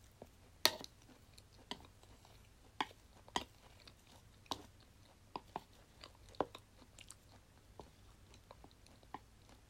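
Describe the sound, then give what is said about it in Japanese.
Someone chewing a stir-fry of sweet potato, broccoli and bacon: soft, quiet crunches and bites come at irregular intervals, with one sharper crunch near the start and many smaller ones after. “うん、うん、美味しかった。さつまいもブロッコリーベーコン炒めでいいのかな、名前は分かんないけど完食。”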